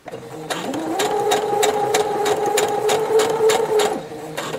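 A sewing machine stitching slowly along a basted zipper with a regular 3.5-length stitch: a steady, even mechanical whir with rapid rhythmic needle ticks that starts abruptly, runs for several seconds, then stops.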